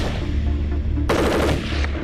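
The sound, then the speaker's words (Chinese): A QGB-201 light machine gun fires one short, rapid burst of harsh, cracking shots that cuts sharply into a low, steady rumble and stops just as abruptly. “在目前就我们国家来说，这款在轻机枪里边，我认为它就是最好的。”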